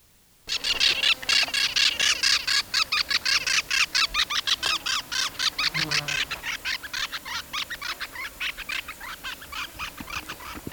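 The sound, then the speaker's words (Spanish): Parakeet calls from two long-tailed parrots, green above and yellowish below and somewhat larger than a Brotogeris, flying over: a rapid, steady train of many harsh, scratchy calls that weakens slightly toward the end. “Que sonó es un citácido, un periquito, algo más grande que un brotogeris, cola larga, por debajo es amarilloso, por encima es verde.”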